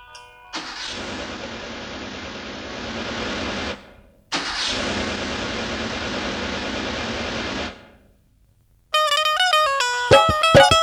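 A car engine starts with two sustained roaring bursts separated by a brief gap, then falls quiet before music begins.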